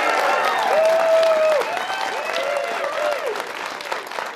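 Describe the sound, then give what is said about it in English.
Applause with cheering from a live studio audience at a studio show in Provo, Utah: dense, steady clapping that stays loud throughout, with a few whooping voices rising and falling above it. “We are once again joined by a live studio audience. You heard them a moment ago. Let's hear them again, our live studio audience.”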